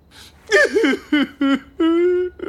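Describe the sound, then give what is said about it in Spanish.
A man crying in a comic scene: a few wavering, whimpering sobs with shaky pitch, followed by a longer, held wail and a short final sob. “No llores, amigo.”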